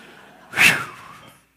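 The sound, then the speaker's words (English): A single loud intake of breath during a church sermon, a brief airy rush that swells quickly and then tapers away, heard alone with no talk. “You may now take a breath.”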